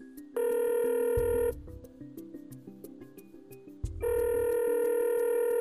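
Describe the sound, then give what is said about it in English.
Ringing tones on a phone line while a call is being dialed: two steady, bright electronic rings separated by a quiet gap with soft clicks, the second ring cut off at the end. “so let's dial him up”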